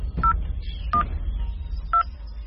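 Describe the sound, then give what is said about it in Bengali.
Keypad tones of a mobile phone as a number is dialed: three short electronic beeps at uneven intervals over a steady low hum. “মোবাইলে number খুঁজে টিপল”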